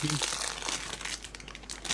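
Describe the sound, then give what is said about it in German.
A plastic bag crinkles continuously as a leftover Christmas spiced almond is eaten from it. The crackly rustling is dense and fairly loud and lasts about two seconds. “Ich esse eine Gewürzmandel, die noch von Weihnachten übrig ist. Nicht in so einer Plastiktüte. Man muss ein bisschen knistern.”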